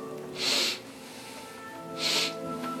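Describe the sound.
A creature sniffs twice, each sniff a long, breathy, hissing intake, well apart from the other, over a steady low droning background.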